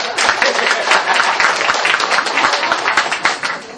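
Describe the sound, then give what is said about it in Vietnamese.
Audience applause fills the space with dense, continuous clapping at a steady loud level, with some voices mixed in beneath it. “Vỗ tay đi.”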